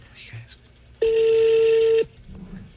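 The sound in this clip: A single sustained telephone keypad tone, about one second long, marks a number being redialed on a phone. Faint voices can be heard before and after it.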